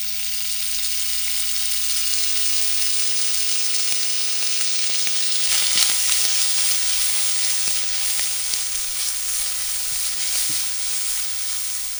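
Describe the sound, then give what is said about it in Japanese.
Bacon and chirimen jako frying in olive oil in a frying pan give a loud, continuous sizzle and hiss, steady throughout with a few scattered small pops and crackles. “フライパンにオリーブオイルを入れてベーコンとちりめんじゃこを加えたら火にかけます。ベーコンとじゃこがカリカリになるまでじっくりと炒めてください。”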